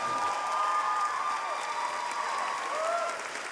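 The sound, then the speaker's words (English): An audience rises and applauds after an on-stage interview in New York: dense, sustained clapping at an even level that eases slightly at the end. “Audience members rise with their applause.”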